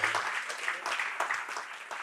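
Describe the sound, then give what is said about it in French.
An audience applauds during a church service praising the Trinity: dense, steady clapping from many hands that stays loud and even for the whole stretch. “Bonne main d'applaudissement pour tout ce que la Trinité accompli.”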